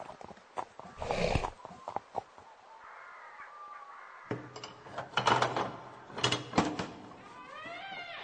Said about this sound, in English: On New Year's Day, Sir Gawain rode to the Green Chapel.